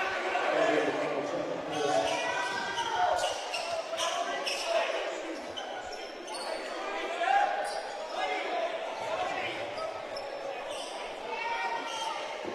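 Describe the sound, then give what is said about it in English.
A basketball is dribbled on the court during the third quarter of a game, with soft repeated bounces half-buried under a steady crowd roar and spoken commentary. “Harris dribbling along the right wing.”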